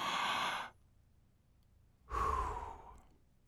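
A person takes slow, deep breaths, with two long, breathy exhales separated by a pause. The breathing is soft and quiet, with no speech.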